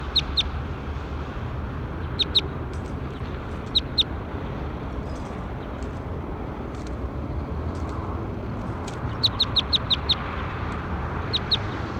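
Bird calls in a field recording: short, high chirps in scattered clusters over a steady low background rumble.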